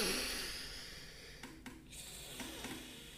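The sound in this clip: Nasal breathing with one nostril blocked: faint, airy inhales and exhales with a few short, snorting puffs of air, heard on their own.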